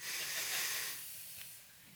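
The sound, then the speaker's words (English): An audience inhaling deeply together at a speaker's prompt, a broad, airy hiss of many breaths that swells for about a second, then thins and fades. “Okay, everybody do this with me. Inhale.”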